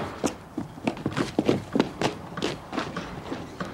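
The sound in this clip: Footsteps going down stairs: many soft, thudding steps in an uneven, hurried rhythm, with no talk.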